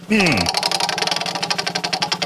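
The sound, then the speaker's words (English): A prize wheel spinning sound effect: a brief falling tone at the start, then a steady run of many rapid, loud ticking clicks with no talk. “Are you ready to give the wheel a spin? Hopefully it is not too rusty from sitting in storage for 6 months.”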